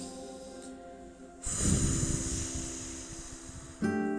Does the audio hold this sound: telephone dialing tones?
no

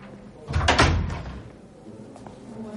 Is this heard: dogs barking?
no

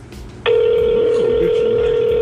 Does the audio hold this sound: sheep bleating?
no

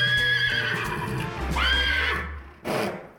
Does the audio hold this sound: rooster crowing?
no

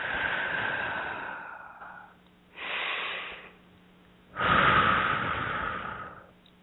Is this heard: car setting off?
no

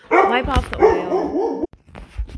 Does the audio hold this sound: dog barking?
yes

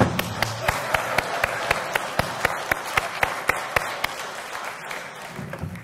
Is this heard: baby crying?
no

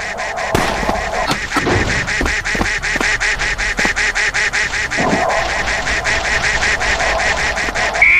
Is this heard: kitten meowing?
no

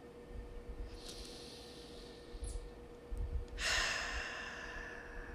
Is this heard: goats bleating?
no

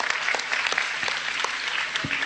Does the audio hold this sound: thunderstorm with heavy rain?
no

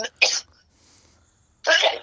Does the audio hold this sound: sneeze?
yes

